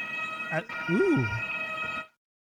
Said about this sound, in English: those German sirens, man.